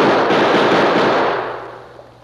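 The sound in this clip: Gunfire sound effect in an old Western radio drama: a loud, dense burst of noise that holds steady, then fades away, with no voices.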